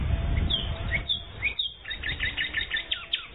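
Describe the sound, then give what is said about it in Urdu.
Birds chirping in quick high tweets. After a low rumble at the start, short repeated chirps come in a rapid, fairly loud series. “آپ نے پرندوں کی آواز سنی ہے نا”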